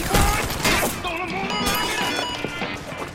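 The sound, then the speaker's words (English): Gunshots ring out in a combat scene where a tank has troops pinned down: a dense run of sharp, loud cracks and crashes over a rumbling, noisy background. “Are those shots? Yeah.”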